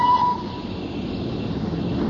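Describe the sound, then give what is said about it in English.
A train is pulling away: a steady low rumble of rail noise, with a brief high tone at the very start. “Lord, I pray that this train leaves, and I pray that it leaves right now.”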